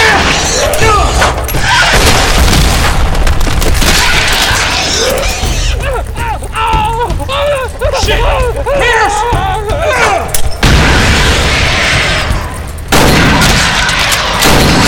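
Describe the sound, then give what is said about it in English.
Grenade explosions thrown two at a time during a fight in a cavern, with dense, continuous booming and crashing throughout and voice-like cries rising through the din in the middle. “Across the cavern, Detroit Green was tossing two grenades at a time, heaving them at the last possible second.”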